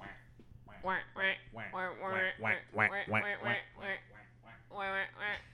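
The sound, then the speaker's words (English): A voice imitates ducks quacking, as if a flock of ducklings had overrun a school: many nasal, buzzy quacks in a quick, uneven series, each a short burst, loud and clear over a steady low hum. “ducks have invaded this school. The little ducklings are everywhere.”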